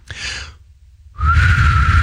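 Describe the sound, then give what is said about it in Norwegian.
Someone who cannot really whistle attempts it: an airy, breathy puff, a brief silence, then a longer breathy blow carrying a thin, steady whistle tone. “dette er det beste forsøket jeg har på å prøve å plystre”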